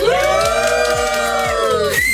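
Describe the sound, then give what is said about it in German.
A festival crowd at the Essen Light Festival cheers loudly, with many voices whooping and yelling together in long, high, wavering shouts that stay strong from start to finish. “Ich mache hier gerade mal das Gastmikrofon hier vorne auf. Jubelt einmal alle gerne.”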